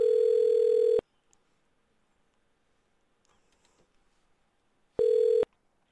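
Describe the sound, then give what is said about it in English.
A telephone line tone after a hang-up as the call is placed again. Two loud, steady, mid-pitched electronic beeps are heard, the first about a second long and the second shorter, separated by near silence with faint clicks. “Oh, they hung up. They're calling back.”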